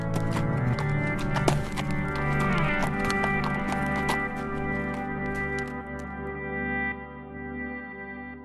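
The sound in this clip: A horse ridden away, its hooves clip-clopping under a sustained musical score, with the sound fading toward the end.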